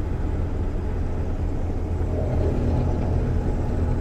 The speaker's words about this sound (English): Of course, I'm going off the road right now. It's alright, guys. I won't crash, I promise.